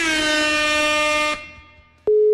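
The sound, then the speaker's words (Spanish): An outgoing telephone call goes unanswered: a loud, buzzy harmonic call tone cuts off and fades away, then a plain, steady tone begins. “No contesta, mi brother. A ver, vamos a volver a marcar otra vez.”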